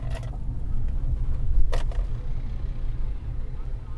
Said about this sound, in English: It's basically... the sound of the wheels and the dry tread.